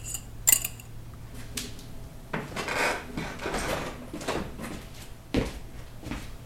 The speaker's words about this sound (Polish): Rozgrzewasz może patelnię na omlet? Dopiero ubijam jajka.